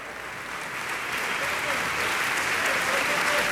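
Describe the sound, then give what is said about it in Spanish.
A concert audience in the hall of Centro Cultural Tlacnar applauding the Orquesta Sinfónica de Xalapa after Shostakovich's Symphony No. 8: a thick, continuous wash of clapping that swells slightly and stays strong. “Usted puede escuchar al público reunido el día de hoy en la sala de conciertos del Centro Cultural Tlacnar reconocer a la Orquesta Sinfónica de”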